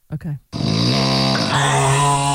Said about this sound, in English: He falls asleep in front of the television and he starts snoring. She records it and he reluctantly but sends me the MP3 of this yesterday.